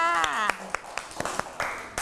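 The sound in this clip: Children clap for a classmate in a class activity, a steady run of sharp, separate claps at roughly four per second. A woman's voice speaks over the first part.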